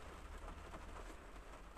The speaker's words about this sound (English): today it's absolutely raining and hammering down